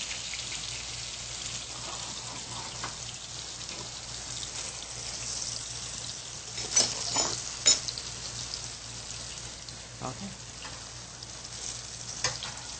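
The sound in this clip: Tofu sizzles and crackles as it fries in a pan, browning to golden, with a steady hiss throughout and a few sharper pops clustered near the middle.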